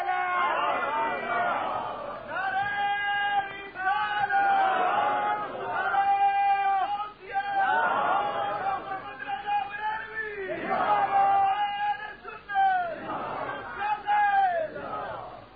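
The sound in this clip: A crowd shouts Allahu Akbar in unison in reply to a Nara-e-Takbeer call at a religious gathering. The loud chant comes in repeated waves, one after another, throughout.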